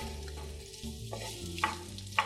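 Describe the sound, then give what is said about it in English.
A wooden spoon stirs onions in olive oil in a pan for a winter vegetable crumble, with a soft, continuous sizzle under slow stirring strokes and a couple of sharper scrapes near the end. “Using my wooden spoon to move around the onions and making sure that they're all coated in the olive oil.”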